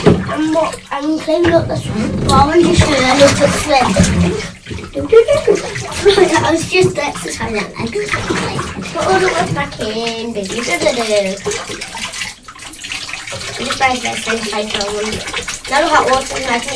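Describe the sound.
Hot water running from a tap into a bath: a continuous gushing, splashing flow that persists throughout while a child and an adult talk over it.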